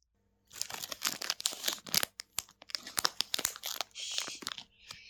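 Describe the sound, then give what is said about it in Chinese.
Wrapping paper crinkles and tears as a birthday present is unwrapped. The rustling is busy and crackly, with many sharp rips and crunches in an uneven stream and no talking. “你现在拆开看看吧。”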